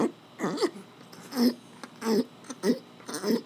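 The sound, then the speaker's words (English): Odd throaty, rasping noises made to scratch an itchy throat, a series of short voiced bursts separated by brief pauses, moderately loud and steady in rhythm. “But if I have an itch in my throat, I do this.”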